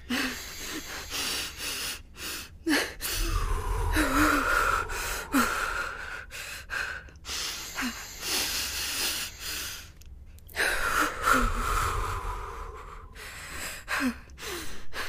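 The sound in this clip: Slow, deep breaths from a person being coached to breathe in through the nose and out through the mouth: a few long, airy inhale-and-exhale cycles, moderately loud, with no talking.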